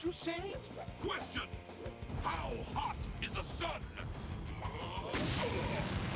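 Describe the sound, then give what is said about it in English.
Rocket explosions from a battle in a TV show burst out as several rumbling booms mixed with people talking over them. “There goes those rockets again. Wow, and only the second battle, and they're not doing too good.”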